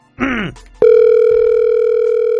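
A steady, unbroken telephone dial tone at one low-mid pitch switches on abruptly and holds to the end while someone places a call. A brief, different sound comes just before it.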